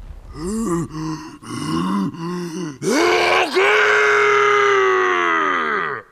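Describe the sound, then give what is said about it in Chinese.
A human voice imitates a giant's loud roar: a few short, guttural groaning bursts, then one long, loud, strained roar that is held for several seconds and slowly trails off. “格洛普把身子弯下一点，大吼一声。”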